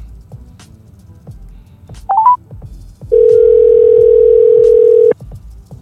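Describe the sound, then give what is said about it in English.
Telephone tones sound while someone places a call: a quick run of stepped dialing beeps, then after a short pause a steady, clear tone holds for about two seconds before cutting off. No one talks. “Let's dial him up.”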